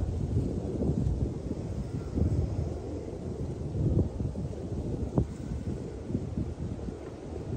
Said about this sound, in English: Perhaps the wind blowing through the trees calms you.